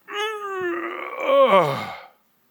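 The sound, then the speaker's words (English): A voice imitates the groaning of an old man getting up from a chair: one long, drawn-out moan of about two seconds with a wavering pitch, loud and alone, with no other speech. “You ever seen granddad getting out of his chair? Eh? There's more noise there than you'll ever find from an old car. It's like,”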